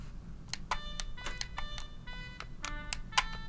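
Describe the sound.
A short tune plays in a video game to activate a stone statue, part of a puzzle for a heart piece. It is a quick run of bright electronic notes, each a clear beep-like tone, rising and falling in a simple melody.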